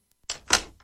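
A door lock clicks shut in a few sharp, bright mechanical clicks, each a short burst with brief silences between them.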